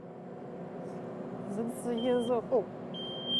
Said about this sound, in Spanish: Solo pita porque tienes el trasero levantado del asiento.